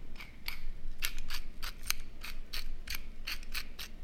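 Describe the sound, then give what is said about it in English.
A pepper mill grinds black pepper onto a burger patty, giving a steady run of many crisp, dry ratcheting clicks in quick, even rhythm. The clicks are heard alone, without talk. “And I'm gonna throw a grind of black pepper on there as well.”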